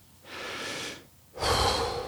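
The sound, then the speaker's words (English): A man draws a deep breath and blows it out through his lips: a soft, airy intake followed by a louder, fuller breathy exhale, with no talking. “He took another deep breath and blew it through his lips again.”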